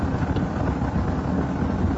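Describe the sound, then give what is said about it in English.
A car's steady low rumble and wind noise as it drives up to a restaurant with a patio and pulls in, even and continuous with no voices. “We're driving up right now.”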